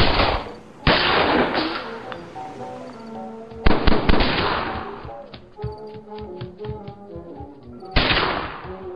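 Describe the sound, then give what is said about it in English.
Gunshots from a German Walther pistol: four sharp, loud cracks spaced unevenly, each followed by a short ringing tail, with quieter sound between them. “Wait, you have a gun now? What is that, a German Walther?”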